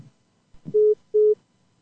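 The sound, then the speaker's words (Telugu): A telephone tone sounds after a call drops: two short, identical steady beeps at one mid-low pitch, separated by a brief gap, following a faint low thump. “Call cut అయినట్టుంది”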